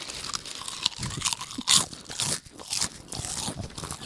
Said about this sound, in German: Wir essen jetzt 60 Sekunden Chips, oder? 60 Sekunden Hardcore Chips essen.